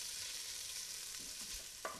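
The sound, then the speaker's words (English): Onion, carrot and celery sofrito sautéing in rendered pork fat with a little olive oil, a steady soft sizzle with faint stirring and one brief scrape near the end, no voices. “the onion and the carrot and celery in, the sofrito. And we're going to sauté it in that for quite a while till it all sort of softens and starts to caramelise”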